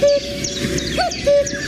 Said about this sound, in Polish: on ma specjalną aplikację, która mu podpowiada, jakie ptaszki ćwierkają za oknem